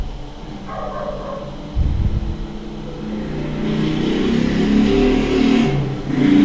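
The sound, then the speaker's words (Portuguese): A vehicle approaches with a low engine rumble that starts abruptly and grows steadily louder, with a brief rise in pitch near the end. “O veículo se aproxima da nave.”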